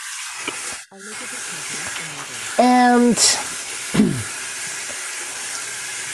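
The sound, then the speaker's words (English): Running water hisses steadily at a kitchen sink as someone washes their hands before handling raw ground beef, a continuous bright rush with a person briefly speaking over it partway through. “Your hand washing is very loud, my friend. Don't know what to tell you. It's a sink.”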